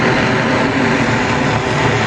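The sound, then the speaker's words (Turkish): A steady whirring roar from a Chinese electric vertical take-off and landing flying taxi on an uncrewed demonstration flight over Astana. The broad, even hum holds at a constant level throughout, with no voices. “Çin tarafından geliştirilen elektrikli dikey kalkış ve iniş yapabilen uçan taksi Astana semalarında başarıyla havalandı.”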